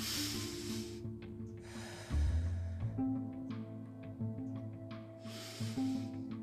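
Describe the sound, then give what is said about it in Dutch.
A few deep, airy breaths in and out during a live meditation session, rising and falling over soft, sustained musical tones. “Ik adem een paar keer diep in en uit.”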